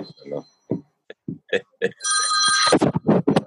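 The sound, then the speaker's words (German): A telephone rings in one brief, loud burst of bright, buzzing tone, set between stretches of people talking. “Wollen Sie rangehen”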